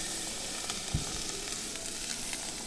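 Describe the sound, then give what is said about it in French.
Meringue crackles and hisses as it cooks in liquid nitrogen, a faint, steady sizzling wash sprinkled with small scattered pops and one slightly stronger crackle. “c'est la meringue qui est en train de cuire euh, dans l'azote. Donc en fait, ça va former une coque qui va se rigidifier.”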